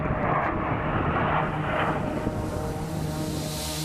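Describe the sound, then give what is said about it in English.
A jet aircraft engine going into afterburner: a loud, continuous roar with a steady droning tone running through it, and the hiss grows brighter toward the end. “Race mile one, going into afterburners.”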